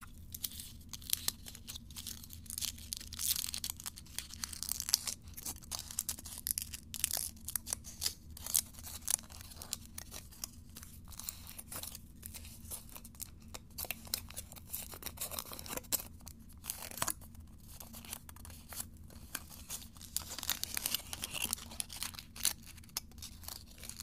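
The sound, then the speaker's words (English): Foil crinkles as a foil-wrapped Hershey's chocolate kiss is unwrapped, giving many quiet, irregular crackles and rustles over a faint steady low hum. “I have here a Hershey's kiss. Let me just unwrap it.”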